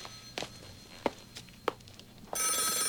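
A telephone bell rings loudly and steadily through the final stretch, bright and buzzing, after a few soft knocks and thuds earlier on.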